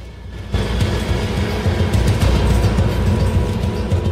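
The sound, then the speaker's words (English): A woodie car drives along a hillside road past houses with a low, steady engine rumble. The drone starts abruptly after a brief quieter moment and stays even throughout. “The Woody drives past houses on a hillside road and pulls up.”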